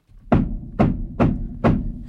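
Four dull knocking raps, attributed to a spirit and counted out during early spiritualist rapping sessions, land evenly spaced about half a second apart. Each is a low, hollow thud with a short decay, and no voices are heard.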